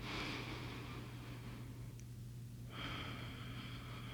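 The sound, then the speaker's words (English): A slow, deep breath drawn in and let out, heard as two soft, airy rushes separated by a short pause, faint over a low, steady hum. “let's start by taking a big, deep breath.”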